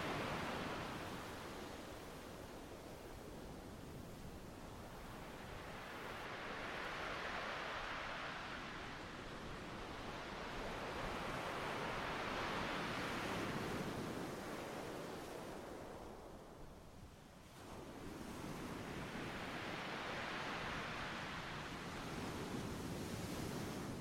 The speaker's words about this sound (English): You are focused entirely on the rhythmical coming and going of the waves.